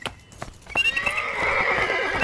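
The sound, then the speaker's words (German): A horse being ridden toward a castle meadow clip-clops with a few spaced hoof strikes, then lets out a loud, drawn-out whinny that carries on over the steady hoofbeats. “Lass uns zur Schlosswiese reiten und dort schon üben, bis Bibi und Tina kommen.”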